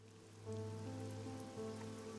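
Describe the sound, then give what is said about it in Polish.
Rain falling outside as an ambient sound effect: a faint, steady patter of rain continues throughout over a low, constant hum. “Na zewnątrz pada przez chwilę deszcz.”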